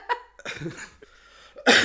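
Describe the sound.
A person coughs a few times in short, harsh bursts separated by brief pauses, the last one loudest.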